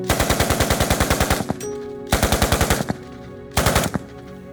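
Loud automatic gunfire rattles out in three rapid bursts of evenly spaced shots. The first burst runs longest and the later two grow shorter.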